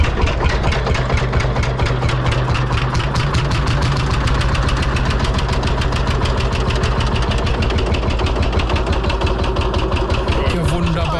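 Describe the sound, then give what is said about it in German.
Rapid, steady chugging of a Lanz Bulldog single-cylinder tractor engine, with dense, evenly spaced low thumps running loud and unbroken through the whole clip. “das ist doch ein Trecker. Ich glaube, das ist ein Lanz Bulldog. Das ist ein Einzylinder, das ist dieses tuckernde Geräusch.”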